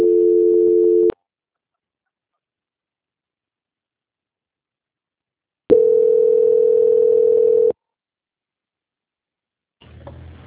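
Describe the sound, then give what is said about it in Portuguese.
Telephone line tone while a call is being transferred: two steady mid-pitched tone bursts, a short one at the start and a longer one after a long silence, then a brief burst of low noise at the very end. “só um instante que eu vou transferir, tá? Tá bom, boa tarde. Transferência.”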